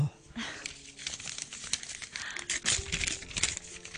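Wrapping crinkles and tears as a gift is unwrapped by hand. Soft, irregular rustles and crackles run throughout at a fairly low level, with a few sharper tearing bursts toward the end.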